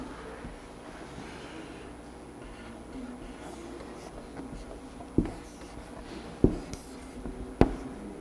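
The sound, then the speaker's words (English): A pen or pencil scratches softly and steadily while drawing a picture of a Russian Ukrainian Orthodox church, with three sharper ticks standing out near the end and no talk over it. “I can't say I think I've ever gone to a Russian Ukrainian Orthodox church, but I'll try drawing one of those just because they're really pretty.”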